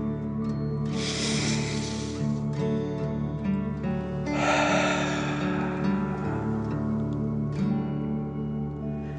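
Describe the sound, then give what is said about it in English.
A deep breath drawn in and let out, heard as two long, soft, breathy rushes of air over a steady, sustained tonal music bed. “Enjoy the feeling and take a deep dragon breath in and out.”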